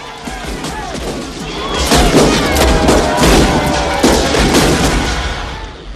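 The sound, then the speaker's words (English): A volley of gunshots fired up into a bar ceiling as festivities resume: many overlapping sharp cracks and booms, densest and loudest through the middle, with voices underneath. “Half the men in the bar shoot their guns up into the ceiling as the festivities recommence.”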